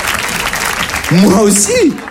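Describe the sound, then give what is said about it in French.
Audience applause at a live comedy set: a dense, steady patter of clapping for about a second, then a voice speaks over it while the clapping carries on more faintly. “Ils applaudissent, bah oui.”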